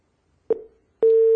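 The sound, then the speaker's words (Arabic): A phone line's tone after a call-in caller is disconnected: a short clicking blip that quickly fades, then a loud, steady, unbroken tone holding to the end. “انقطع اتصال أبو ناصر، يحاول الاتصال بنا مرة ثانية.”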